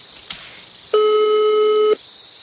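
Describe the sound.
A single steady telephone ring tone on an outgoing call to a prize winner, loud and even for about one second, preceded by a faint click.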